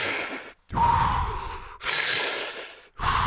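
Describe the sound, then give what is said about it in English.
Deep breathing during a breathing exercise, with full breaths drawn in and fully expelled. Loud, rushing airflow repeats in several long cycles broken by brief silent gaps, with no talk. “Fill yourself with breath, then fully expel the breath. So it sounds like this.”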